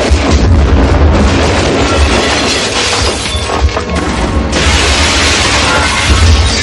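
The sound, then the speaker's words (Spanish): An explosion tears a hose reel loose from a high-rise building's facade in an action scene, producing a loud, dense roar with crashing debris and shattering glass that lasts throughout, with no voices. “La explosión arranca la bobina pero queda trabada en el muro.”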